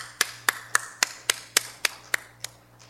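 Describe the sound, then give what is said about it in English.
Hands clapping to welcome the pastor at a church service: about nine sharp, evenly spaced claps in a steady beat, tailing off at the end. “Would you put your hands together, help welcome your pastor, and express your love for our good God?”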